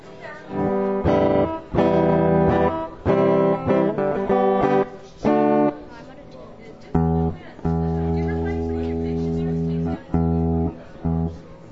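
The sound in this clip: Tuning notes from a young musician readying an instrument on a songwriters' stage: several bursts of sustained, ringing pitched tones, repeated with short pauses and ending in longer held notes.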